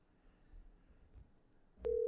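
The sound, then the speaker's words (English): A phone line tone sounds as a call is placed to a friend: after a quiet, low rumbling stretch, one steady, fairly loud mid-pitched tone starts near the end and holds without a break. “Matter of fact, I'm going to call up Brandon. Because hopefully he picks up the phone. Let's see. Let's try this little new feature out we got.”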